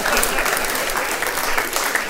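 Live audience applause, a dense crowd clapping loudly and steadily for the whole stretch, with no pause or break in the wash of claps.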